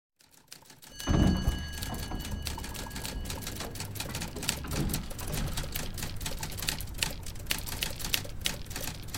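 Rapid clacking of someone typing up contracts in an office early in the morning, a dense run of many sharp keystrokes that continues steadily once it starts, with no voices.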